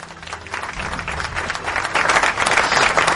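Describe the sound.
Canned applause plays as a sound effect, a dense, steady patter of many hands clapping that grows slightly louder toward the end.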